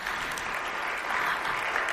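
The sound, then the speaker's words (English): Audience applause for the panelists at the end of a panel discussion: soft, steady, continuous clapping from many hands that swells slightly toward the end, with no voices over it. “Please give our panelists an amazing round of applause.”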